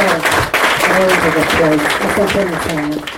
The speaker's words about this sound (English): Well, we hear makofi tena.